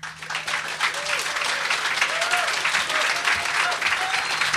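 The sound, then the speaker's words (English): An audience at an Edinburgh Fringe comedy show applauds a comedian as he comes on stage. The clapping is dense and steady and holds strongly for several seconds, with a faint voice underneath. “It's called... very long applause. Sometimes I don't even really get the mic out before it stopped.”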